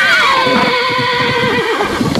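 A spooked horse whinnies loudly for about two seconds: a continuous, wavering neigh with bright harmonics. No voices are heard.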